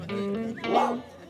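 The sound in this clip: Yips and whimpers from a growing white puppy playing outdoors with other dogs, running back and forth across a grass field; short, high, tonal dog cries that rise and fall over a busy, steady background.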